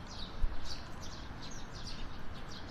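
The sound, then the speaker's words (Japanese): Bird chirps outdoors: many short, faint, high tweets repeat throughout over a steady low background hiss. “この辺りは鳥が多いですかね。”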